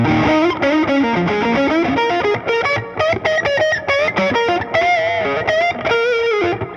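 Heavily distorted electric guitar through the other side of a Duelist pedal, playing a blues line in B flat. Quick, loud, continuous notes bend and slide in a busy lead phrase.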